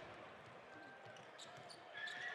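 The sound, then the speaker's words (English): A basketball is dribbled on court during an NBA game between the Jazz and the Lakers, with faint, soft, regular bounces over a low crowd murmur. “LeBron just about lost the dribble. Gets it back.”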